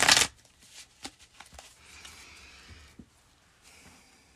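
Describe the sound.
Tarot cards being shuffled by hand: a loud, brief burst of card noise at the start, then many soft, scattered taps and slides of the cards, with no talking.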